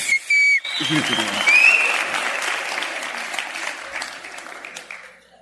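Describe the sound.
Audience applause: dense, steady clapping that swells early, holds for about five seconds and thins out at the end, with a couple of sharp whistles near the start.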